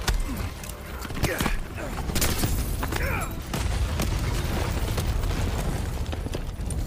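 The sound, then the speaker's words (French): An explosion in a video game cutscene blasts the character Irons out of a building during an exoskeleton fight. It comes as a loud, sustained roar with crackling bursts of debris throughout. “Alors qu'une explosion projette Irons hors du bâtiment”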